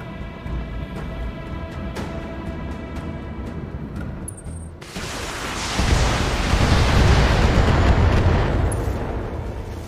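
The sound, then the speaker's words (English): A video game vehicle explosion erupts partway through after a stretch of steady background noise, swelling into a loud, broad roaring blast that holds to the end. “One fewer hostile on the board. Vehicle destroyed. Enemy unit destroyed.”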